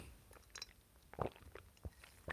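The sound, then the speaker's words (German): Tea being sipped: a few soft, quiet slurps and small gulping sounds, with short gaps between them and no voices. “Ich muss mal eben einen Schluck Tee trinken.”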